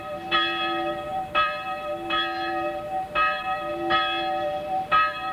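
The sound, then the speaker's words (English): A passing bell, the single smallest bell left in a church tower, tolling at a small cemetery outside Sopron, Hungary: six bright strokes at a measured, slightly uneven pace, each leaving a sustained ringing tone. “From the small cemetery outside the Hungarian town of Sopron, the passing bell tolls for old Laszlo Bozo, dead for 3 days.”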